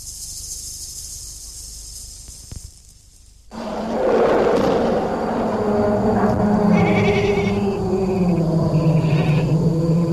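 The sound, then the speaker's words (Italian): A flock of agitated sheep that has been brought into shelter bleats after a short hissing opening, with overlapping, wavering, fairly low cries that continue steadily. “È stata una buona idea portare al riparo il gregge. Gli animali erano un po' agitati”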